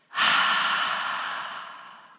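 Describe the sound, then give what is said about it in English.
A long exhale during a guided tense-and-hold breathing exercise: one loud, breathy rush of air that starts abruptly and fades slowly over about two seconds, with no talk. “Tense and hold. Double exhale. Double inhale. Tense and hold. Double exhale.”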